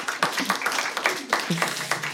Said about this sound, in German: Ein Applaus für Frau Eichmann.